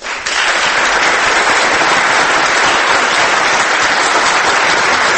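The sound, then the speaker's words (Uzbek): Thunderous applause follows Islam Karimov's oath of office as president of Uzbekistan: loud, dense, unbroken clapping from a large crowd that begins abruptly and holds at full strength throughout. “Keyin chapaklar, guldiroz qarsaklar.”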